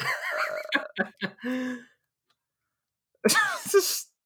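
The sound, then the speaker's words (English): A person sneezes once, loudly and abruptly, after a short stretch of voiced sounds and a pause of silence. “Oh, Yang Wenli, bless you.”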